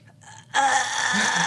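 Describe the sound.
A voice imitates a woman bearing down and pushing during labour. A faint breath comes first, then a loud, strained, breathy groan that holds steady for about a second.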